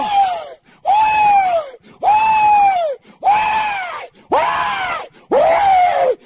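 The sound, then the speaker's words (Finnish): A voice imitating wailing gives six loud, drawn-out, tonal cries, each held for about a second and separated by brief pauses. “There will be that kind of wailing.”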